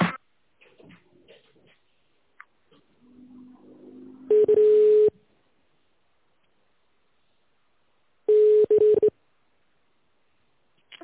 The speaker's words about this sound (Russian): Наберите внутренний номер или дождитесь ответа.